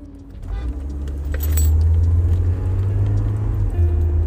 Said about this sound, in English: So, forgive me, I'm driving here.